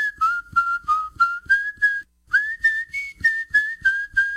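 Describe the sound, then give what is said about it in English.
Someone whistles a melody of short, clear, bright notes at a fairly even pace, in two phrases separated by a brief pause, with no other sound. “Y'all come say hello to the whistler”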